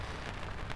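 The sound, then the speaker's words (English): Heavy rain pours near a raised road over a railway line, a steady, dense hiss with no distinct individual drops or pauses. “Next minute you're looking for a corpse in the pissing rain.”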